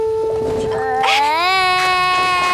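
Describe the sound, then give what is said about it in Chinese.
A child cries loudly at home during Chinese New Year. The sustained, tonal wail climbs in pitch partway through, then holds high and strained. “吃什么吃？大过年的哭哭哭，丧气。”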